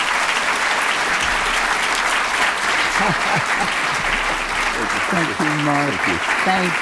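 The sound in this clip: Audience applause in a chapel welcoming a guest speaker: dense, steady clapping runs throughout, with a voice emerging over it near the end.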